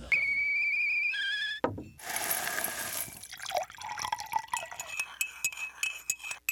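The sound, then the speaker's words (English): Nescafe coffee being prepared: a steady whistling tone that shifts pitch once, a short burst of hissing noise, then a string of light drips and glassy clinks. “That's the sound of a Nescafe moment.”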